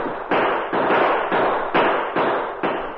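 Six gunshots are fired in a Western-style radio drama as a sheriff's posse chases riders. Each is a sharp crack with a short fading tail, spaced at a fairly even rhythm, with no voices over them.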